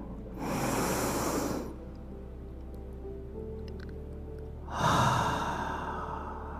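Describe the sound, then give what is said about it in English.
Deep, airy breaths during a guided breathing exercise, with two long, hissing breaths separated by a quiet pause, fairly soft and without talk. “And another inhale.”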